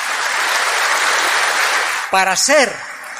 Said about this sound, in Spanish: Démosles un fuerte aplauso a nuestros sacerdotes, ungidos con el Santo Crisma